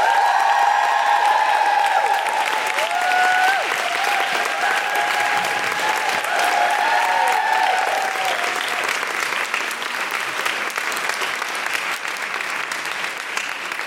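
Audience applause and cheering as a guest is welcomed on stage: dense, sustained clapping mixed with whoops and whistles. The whoops and whistles are strongest early on, and the ovation eases slightly toward the end.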